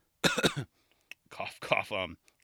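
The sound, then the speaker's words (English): Throat clearing in two voiced, raspy bursts close together, followed by a soft tick and a pause before a longer, rougher stretch of clearing and rasping. “Sorry, I was clearing my throat.”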